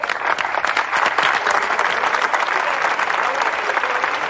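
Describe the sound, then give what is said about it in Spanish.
Applause for contestants at a prize-giving event: dense, steady clapping from a crowd, loud and unbroken from start to finish. “Y otro aplauso para nuestros concursantes.”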